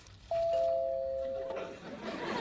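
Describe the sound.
A two-tone ding-dong doorbell rings as a Chinese food delivery arrives. A clear higher note is followed by a lower one, and both sustain for about a second before voices come in.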